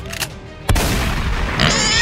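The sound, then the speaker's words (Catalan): A single shotgun blast sound effect cracks in sharply, then trails into a long, noisy rumbling tail that lingers and swells slightly toward the end. “Escopeta anti-influencer. La primera escopeta homologada per espantar gent que grava reels”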